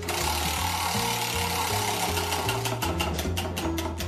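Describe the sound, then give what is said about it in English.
A prize wheel spins with a fast, even run of mechanical ticks that grows more distinct toward the end, set over a steady, low rhythmic backing throughout. “So let's give the wheel a spin and see what it lands on.”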